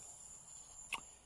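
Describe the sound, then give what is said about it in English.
Georgia crickets chirp at night in a yard, a steady, high-pitched trill that runs through the whole clip, with one brief louder burst near the end. “And I'm doing a walking talk in my yard. You're hearing Georgia crickets right now.”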